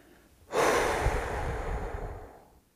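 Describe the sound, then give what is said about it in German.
A single slow, deep exhale during a guided breathing relaxation, one long steady airy outbreath that starts abruptly, holds fairly loud and then gradually fades away, with no talking. “Und lass die Luft bis in deinen Bauch strömen. Und dann atme langsam und bewusst wieder aus.”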